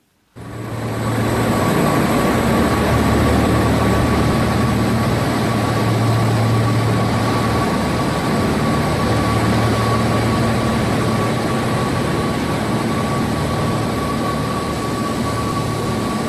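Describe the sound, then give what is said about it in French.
Machines in a cryptocurrency mining farm in China run with a loud, steady whirring roar and a thin, high, constant whine. The sound starts abruptly and holds almost unchanged for the whole stretch. “Ce bruit que vous entendez, chers auditeurs, c'est pas celui du métro, c'est pas une gare, c'est ce qu'on appelle une ferme de minage qui se trouve là en Chine.”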